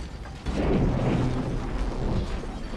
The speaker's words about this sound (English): An explosion rips through the lab, the floorboards give way and the drug dealers crash into a room full of dolls. Fireballs blast through the windows.